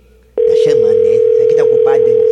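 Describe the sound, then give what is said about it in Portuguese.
A steady telephone tone plays on a line reported busy, starting abruptly and running unbroken to the end beneath people talking. “Tá o número está ocupado no momento.”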